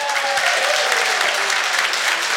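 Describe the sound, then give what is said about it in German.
Applause from a crowd in a packed festival tent at an Oktoberfest-style event in Hintertux: dense, steady clapping from many hands that holds at an even, loud level throughout with no clear breaks. “Ein knallvolles Festzelt hier in Hintertux und dafür ein Dankeschön an alle Gäste, die vorbeigeschaut haben und mit einem Applaus schicke ich mal liebe Grüße.”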